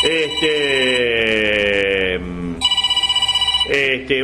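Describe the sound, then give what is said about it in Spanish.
A telephone rings in a radio studio during a live show: a loud, rapid trilling ring of many fast pulses in the middle, set between sustained bright tones. “nos están llamando, pero no, es difícil, ¿no? Poder atender.”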